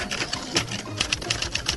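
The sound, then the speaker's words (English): Automatic auto-typist typewriters type preset sentences at the push of a button, giving a dense, rapid, uneven mechanical clatter of key strikes. “aided by latest auto-typist equipment. Push-button selection of preset sentences, most useful for instructions to salesmen and many other things, is all that's necessary. The almost magic typewriters do the rest.”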